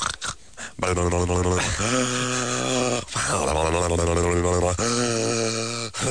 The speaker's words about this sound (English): Remember what I sound like going down and so on with my deviated septum?